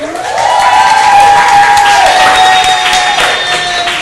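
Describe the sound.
Loud cheering and applause from an audience welcoming a guest at an event at an art bistro in downtown Douglasville. A long, high whoop rides over sustained clapping before the noise eases slightly.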